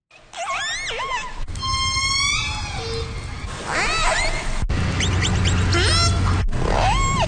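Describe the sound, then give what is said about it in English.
Killer whale calls from the West Coast: high, harmonic squeals and whistles sweeping up and down in pitch, several separate calls broken by brief gaps, over a steady low rumbling background. “Now that is the sound of some audio of killer whale sounds on the West Coast. You can hear their calls in a new audio catalog that is now available online.”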